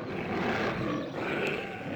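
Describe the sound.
A tiger roars in a loud, continuous, rough growl lasting about two seconds, with a brief dip in intensity around the middle.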